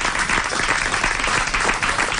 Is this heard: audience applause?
yes

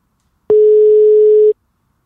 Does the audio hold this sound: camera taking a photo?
no

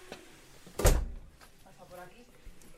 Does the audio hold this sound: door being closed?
yes

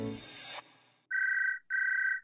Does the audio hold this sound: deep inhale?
no

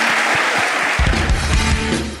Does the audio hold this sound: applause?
yes

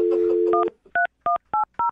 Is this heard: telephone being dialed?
yes

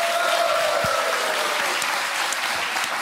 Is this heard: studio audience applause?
yes

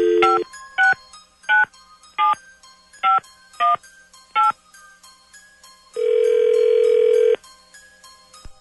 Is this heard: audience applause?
no

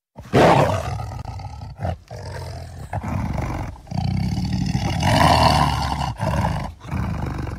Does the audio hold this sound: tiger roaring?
yes

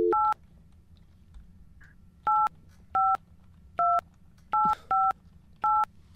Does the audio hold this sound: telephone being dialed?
yes

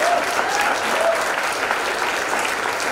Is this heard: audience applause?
yes

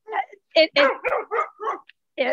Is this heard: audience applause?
no

